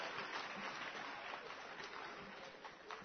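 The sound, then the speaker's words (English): An audience applauds Reverend Father Jude at a church gathering. The clapping is soft, even and continuous, a muffled patter that stays low throughout. “Clap your hands for Reverend Father Jude.”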